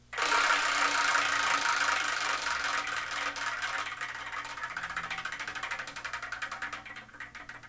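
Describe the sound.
A prize wheel spun to pick the next review to cover gives a rapid, continuous ticking rattle, loud at first and gradually fading before it stops.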